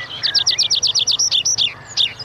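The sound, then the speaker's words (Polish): Meadow pipit song: a rapid run of many thin, high, evenly spaced notes, closing with a few more varied, slightly spaced chirps. The song is fairly loud and carries alone over faint low background noise. “Świergotek łąkowy. Ptak śpiewający.”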